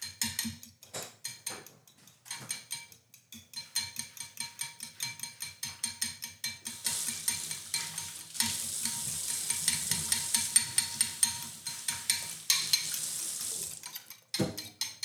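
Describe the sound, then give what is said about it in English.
Eggs being lightly beaten in a bowl: a fast, steady run of many light clicking taps that keeps going throughout, joined partway through by a brighter, hissing wash. “Let me beat the eggs.”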